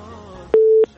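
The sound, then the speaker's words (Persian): A single short telephone line tone sounds as the next caller is connected: a steady mid-pitched beep with a click at its start and end, following faint voices. “میریم تماس بعدی را وصل می‌سازیم، ببینیم کدام عزیز ما است، از کجا تماس گرفته.”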